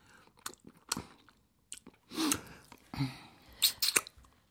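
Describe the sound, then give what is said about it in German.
Eating at a shared meal: crunchy chewing and biting come in several separate bursts with quiet pauses between them. The sounds are fairly faint and there is no talk. “Jetzt öffne ich das Fenster und da kommt frische Luft zu dir herein. Und dann essen wir zusammen.”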